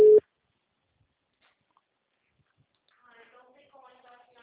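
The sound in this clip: A single short, loud telephone busy-tone beep after a call has disconnected, followed by a silent pause and then a faint voice speaking.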